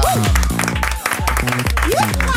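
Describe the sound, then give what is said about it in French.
Applause for a caller on a morning radio show, heard together with a loud musical jingle carrying strong tonal notes. The clapping sits underneath the music for about two and a half seconds. “Applaudissements pour Mylène.”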